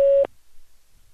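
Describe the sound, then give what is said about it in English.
A telephone answering-system tone sounds once, a steady mid-pitched electronic beep lasting about a quarter second, to signal that recording has started. Low, faint line noise follows it. “Record after the tone. Hit any key when you're done.”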